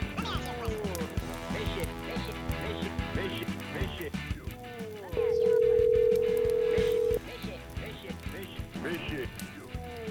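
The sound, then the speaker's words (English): Heard on an outgoing phone call, a ringing tone holds as one long, steady note for about two seconds. It sounds over busy background music. “let's call the Mishy and see if Mishy answers. Ringing him up.”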